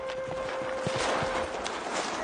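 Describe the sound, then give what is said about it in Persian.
Hooves of a governor's horse clip-clop in a Persian-language audio drama, a steady run of soft, muffled beats over a constant hum and background noise. “به گمانم اسب حاکم با خودش است.”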